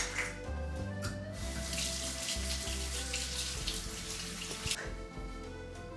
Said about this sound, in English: for sanitary purposes, make sure to wash your hands.